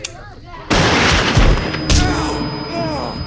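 A gunshot goes off as a sudden, loud blast followed by a rough, rumbling tail. A second sharp crack comes about a second later and also fades away.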